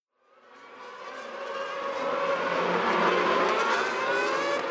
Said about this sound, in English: And Hamilton is closing the gap. The race is very close now. Oh, and he's going past. That's fantastic driving from Lewis Hamilton.